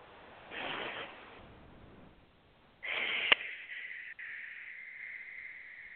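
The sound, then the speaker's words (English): A deep breath taken during a guided meditation, heard as a quiet, airy rush of air, then a pause and a longer, hissier breath. “take a nice deep breath”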